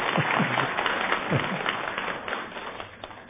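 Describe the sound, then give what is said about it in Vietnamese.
An audience applauds with steady, dense clapping at a moderate level. A few heavier low thumps show up early, and the sound stays even before thinning slightly at the close. “Vỗ tay.”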